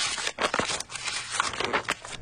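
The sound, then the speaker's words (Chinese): A listener's letter envelope torn open: a quick series of crackly, papery tearing and crinkling bursts at moderate loudness, with no voices. “来拆开我们今天的第三封来信，这封来信很有意思，我们来听听看。”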